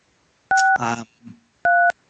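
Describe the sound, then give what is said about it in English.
Telephone dialing tones as a call is placed: two steady, fairly loud dual-tone beeps with a short voiced sound between them. “we are calling you right now. And the phone is dialing as I speak.”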